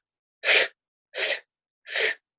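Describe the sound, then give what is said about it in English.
Three short, forceful breath sounds from a person demonstrating a ventilator breathing pattern, evenly spaced with silence between, each a breathy burst lasting about a third of a second. “the theory is that they stay in inspiration for a longer amount of time and spend less amount of time on expiration. So their breaths would look like this.”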